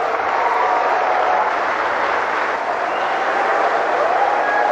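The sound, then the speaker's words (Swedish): An audience at a BRICS summit business forum applauds to welcome Russia's president. The clapping is dense, even and unbroken, and stays at a steady level throughout. “Ja, här har vi en glad publik, vad det verkar. Välkomna Rysslands president när han ska tala inför ett affärsforum i anslutning till BRICS nu på toppmötet där.”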